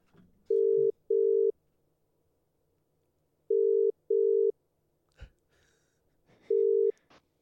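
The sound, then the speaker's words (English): Ringback tone while calling someone: a steady mid-pitched tone pulses in two double rings with a long gap between them, then starts a third ring, and a brief click falls in the second gap. “So what I reckon we do now is we give Mum a call”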